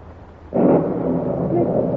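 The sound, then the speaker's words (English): Thunder during a mountain storm: after a short quiet start, a sudden deep rumble breaks in and rolls on steadily to the end. “there is a storm. Yes, or else it's the mountain starting another slide.”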